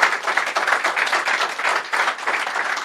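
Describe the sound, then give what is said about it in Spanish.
Applause from a church audience: dense, steady clapping that holds at an even level throughout. “Dele el aplauso al Señor.”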